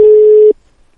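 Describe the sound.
A telephone busy signal: a single steady, mid-pitched electronic tone lasting about half a second, then cutting off into silence.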